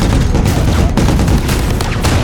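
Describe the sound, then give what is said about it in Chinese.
Heavy machine gun on a vehicle roof laying down suppressive fire during a firefight, a loud, dense, continuous stream of shots with a booming low end and no pause. “无奈之下，车顶的重机枪只能朝着狙击手可能藏身的位置展开持续的火力压制。”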